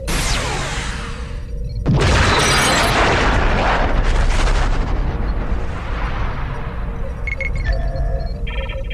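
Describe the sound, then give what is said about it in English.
Disruptor weapons fire and explosions in a space video game as a warship attacks a space station: loud, sustained roaring blasts with a sharp burst early on, then rumbling, crackling bursts continuing without pause. “IRW Terex is attacking Deep Space Nine. IRW Terex firing disruptors.”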